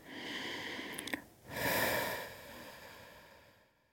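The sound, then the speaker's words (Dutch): A person takes a deep breath in, then lets out a slow exhale through pursed lips. Both are soft and airy, with a short pause between them, and the exhale fades out gradually. “En dan mag je diep inademen en langzaam uit door je mond via getuite”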